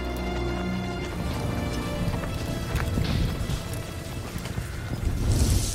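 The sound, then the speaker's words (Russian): Hoofbeats and rolling clatter of a horse-drawn cart moving through a forest, a dense, continuous rumbling patter that stays steady throughout with no voices. “Повозка движется по лесу.”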